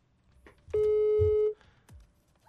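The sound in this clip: A phone rings on an outgoing call: one steady, mid-pitched ringback tone lasting under a second, fairly loud over faint background noise, followed by quiet.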